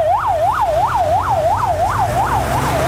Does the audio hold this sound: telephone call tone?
no